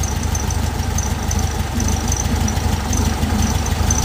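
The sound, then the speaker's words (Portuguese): A car engine idles while its charging voltage is tested, giving a steady low rumble with a faint pulsing throb and a thin high whine. The level stays even throughout. “Em marcha lenta ele não tem carga nenhuma. Só que observem quando eu acelerar.”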